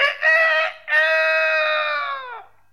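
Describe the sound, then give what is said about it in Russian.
A rooster crows from hiding beneath a cottage window: one loud, drawn-out, harmonic-rich crow with a short break near the start, holding a steady pitch before tailing off at the end. “Вы, конечно, понимаете, что осел только открывал рот, а кричал спрятавшийся под окном петух.”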